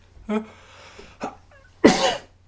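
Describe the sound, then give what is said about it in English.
A person gives a single loud, brief cough-like burst with a harsh, explosive onset, following a couple of short vocal sounds. “If I'm going to cough”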